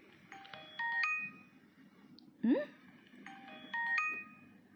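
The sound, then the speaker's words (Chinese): A mobile phone message notification sound plays twice, each a short bright run of high chiming tones, separated by a quiet gap of about two and a half seconds. “不是我的消息，我手机都是静音的，你的吧？”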